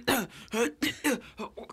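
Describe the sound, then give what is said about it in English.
A voice imitating a dry cough in a quiet office, a quick series of short, harsh, voiced coughing bursts, loud at first and growing smaller and faster toward the end. “Because I got this dry ass cough, and I'm just. Does coughing embarrass you? Sometimes, if it's quiet. Oh my God! So I work in an office and it's quiet, and I'll be like,”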